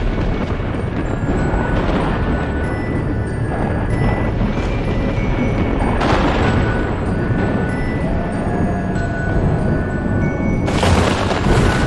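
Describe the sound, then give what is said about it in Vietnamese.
Thunder and lightning strike over a cemetery: a continuous heavy rolling rumble breaks into sharper cracking bursts twice, loud and dense throughout, with no talking. “Chỉ nghe tiếng sấm sét vang vọng khắp cả nghĩa trang. Ở trên bầu trời, lôi điện trong mây đen dường như cũng cộng hưởng đánh xuống đùng đùng.”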